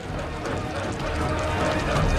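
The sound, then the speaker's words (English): Men stamp their feet on the floor above a bar while crowding around a drinking game, making a steady run of dull, rhythmic thuds within a dense, unbroken crowd din. “In the bar above, the men are stamping their feet as they huddle around a table where a drinking game is taking place.”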